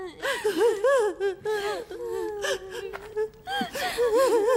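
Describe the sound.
A woman weeping and wailing in grief over a lost child, with high, wavering moans, whimpers and gasping breaths in a loud, continuous outpouring.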